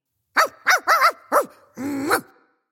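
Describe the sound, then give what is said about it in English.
A dog barks at the mailman with four short, sharp barks in quick succession. A longer, drawn-out bark follows and fades away. “Sorry, that's my dog Melvin barking at the mailman.”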